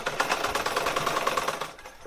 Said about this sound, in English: is huddled over her sewing machine, filling orders.